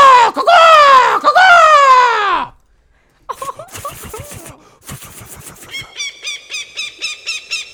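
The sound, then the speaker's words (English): A hawk screeches twice, long, harsh and falling in pitch. After a short silence comes a run of rapid, clicking chatter calls that pulses in quick, repeated bursts. “Is that a fucking hawk in here? There's a real hawk here.”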